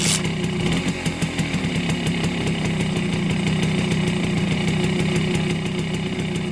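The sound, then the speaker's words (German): A Simson S50 moped engine idling, a loud, steady, rapid puttering that holds an even rhythm without a break throughout. “Das hier ist der Klang einer Simson S50.”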